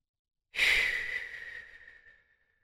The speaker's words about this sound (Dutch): En laat maar los en blaas met het uitademen alle spanning van je benen en voeten weg.